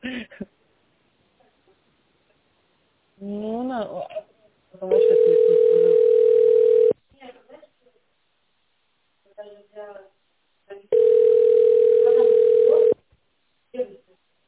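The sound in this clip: Ringback tone on a telephone line while waiting to be connected to an industry project office's switchboard: two long, steady tones of about two seconds each, with a recorded voice speaking around them.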